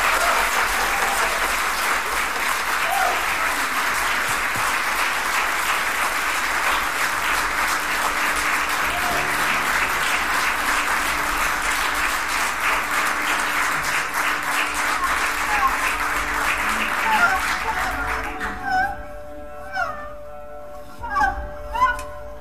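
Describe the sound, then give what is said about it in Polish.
Warm audience applause greets a throat-singing vocalist, a steady wash of clapping that holds strong for most of the stretch, then thins out and stops as a few sparse tonal sounds emerge. “Przed Państwem wielkie brawa.”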